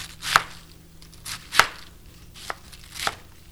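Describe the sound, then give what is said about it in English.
A knife chopping quartered cabbage into one-inch chunks gives four crisp, sharp chops at uneven intervals, each a clean thud on its own with no talk. “I've quartered the cabbage and then halved each of those quarters and cutting them into 1-inch chunks.”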